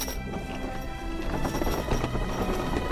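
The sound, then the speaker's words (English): A horse-drawn carriage moves off in Vienna, with hooves clip-clopping over a continuous, dense clatter at steady loudness. “His carriage awaits, but he does not move. He waves the carriage on.”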